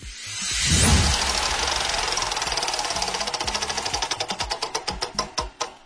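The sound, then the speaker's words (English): Prize wheel spinning on a question wheel for a challenge: a rapid ratcheting clatter of clicks that gradually slows, the ticks spreading farther apart and sounding more distinct as the wheel winds down. “a bunch of questions go on this wheel and it's going to sound like this”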